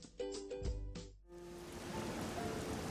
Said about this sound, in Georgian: არაფერი უხდება ბათუმს ისე, როგორც შხაპუნა წვიმა.